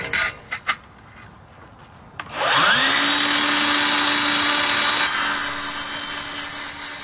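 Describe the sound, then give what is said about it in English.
A tabletop miter saw trimming a length of track for permanent roofline lighting: a few light clicks, then the motor spins up with a rising whine into a loud, steady high drone that brightens partway through the cut. “A technician uses a tabletop miter saw to trim a length of track for permanent roofline lighting.”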